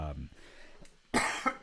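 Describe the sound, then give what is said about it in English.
A cough bursts out sharply near the end, after a stretch of faint talk, and is followed by another short throaty sound. “need a cough button”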